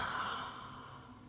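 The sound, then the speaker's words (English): A deep breath, heard as one long breathy exhale like a sigh. It is fairly loud at first and fades steadily over about a second, with no talking. “I want y'all to take a deep breath in and out.”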